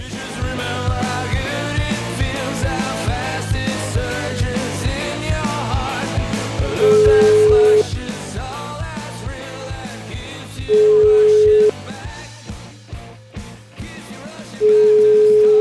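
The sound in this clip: Telephone ringback tone while calling a café owner: three long, steady beeps, each lasting about a second and evenly spaced, sounding over a busy music bed.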